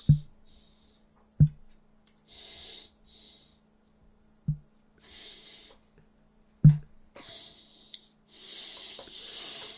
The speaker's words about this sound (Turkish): Kalp krizi geçiriyor. Nefes alışverişi geliyor.